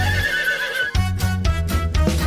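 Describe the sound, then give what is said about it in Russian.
A horse neighs in a loud, high, wavering whinny that lasts under a second, followed by further lower, rhythmic sounds. “Отгадай скорей загадку, кто же там стоит? Лошадка!”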